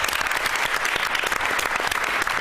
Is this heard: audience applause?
yes